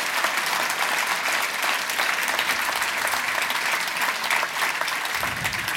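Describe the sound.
An audience claps for a guest at a live talk event. Dense, even clapping continues for nearly six seconds, with a low rumble joining in the final moments.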